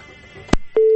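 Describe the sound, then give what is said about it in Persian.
Busy tone after a phone call is cut off: a faint hum, then a sharp click, a short thump and a steady, loud, low tone that holds to the end. “بله تماس قطع شد.”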